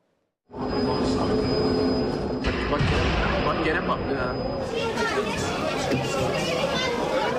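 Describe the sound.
Metro train carriages run during rush hour on an Istanbul line after a cable explosion, a steady loud rumbling roar with rail noise and a thin high whine that stops partway through, while panicked passengers talk throughout.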